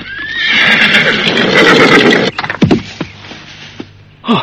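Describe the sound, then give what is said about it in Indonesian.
A horse whinnies loudly as a rider approaches, a long shrill neigh lasting about two seconds, followed by a few sharp hoof clops. “tiba-tiba dari jauh seorang penunggang kuda datang mendekat”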